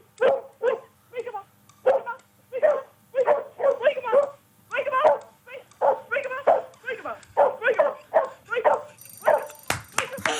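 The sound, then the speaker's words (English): A dog barking in a radio breakfast show's ten-second barking contest: many rapid, sharp barks and yips in quick bursts, loud and nearly unbroken, with a short burst of noise at the very end. “So the dog that's barked the most in the 10 seconds by next Friday will win that open order, okay?”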